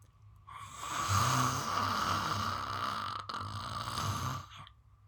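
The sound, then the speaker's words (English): One long deep exhale pushed out with the tongue sticking out, a rasping, breathy rush that holds steady for several seconds and then stops. “I'm going to take a deep breath in, and then I'm stick my tongue out and exhale.”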